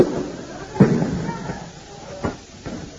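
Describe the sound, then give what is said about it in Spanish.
Tear gas canisters fired by police during a student riot in Córdoba: a few sharp bangs and pops, the loudest early on, over a rough, noisy background. “Escuchan disparos de gases lacrimógenos.”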